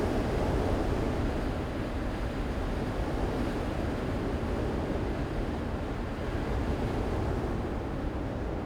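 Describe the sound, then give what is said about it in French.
Wind roars through the bare crown of a leafless beech tree, a dense, steady rushing like a blower, strong in the low range and unbroken throughout without distinct gusts. “Mais derrière, ce n'est pas un conifère, mais un hêtre, le sommet d'un hêtre qui n'a plus de feuilles. et on a plus l'impression d'une soufflerie.”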